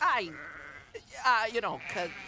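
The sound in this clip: Sheep bleating: several quavering, nasal bleats, some long and wavering and others short, following one another closely at a fairly loud level.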